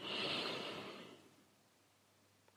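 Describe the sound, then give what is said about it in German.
A slow, deep breath in during a guided breathing exercise: a soft, airy rush that swells and then fades away over about a second and a half, followed by near silence. “Noch ein letztes Mal tief einatmen,”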